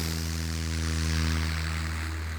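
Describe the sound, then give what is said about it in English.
A bush plane in flight gives a steady propeller-engine drone, with a low harmonic hum layered over a broad airy rush. The sound stays constant for the whole stretch, with no voices. “Pozuelo wanted to take a journey in a bush plane and retrace the expedition route.”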